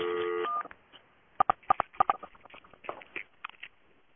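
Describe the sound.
Telephone keypad tones in an automated Comcast phone menu: three short, evenly spaced dual-tone beeps, faint, followed by scattered soft clicks of button handling.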